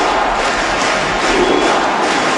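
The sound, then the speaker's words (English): A crowd at a baseball stadium in Cuba cheers during a presidential visit, making a dense, steady roar of many voices that stays loud and unbroken. “Barack Obama went to visit Cuba and Raul Castro to the cheers of the crowd there at the baseball stadium?”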